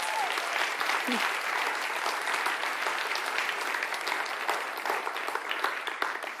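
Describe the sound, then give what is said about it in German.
An audience applauds with many hands clapping in a dense, steady patter. The applause stays even throughout and eases slightly near the end. “Und ich bitte euch um einen Applaus für all die, die ihren Samstag”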